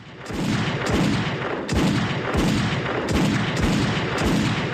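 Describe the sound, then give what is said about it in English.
Machine gun fire in a drama, with sustained bursts of dense, loud shots repeating in a rough, steady rhythm over several seconds. “A machine gun opens fire on Alex, who's holding a white cloth.”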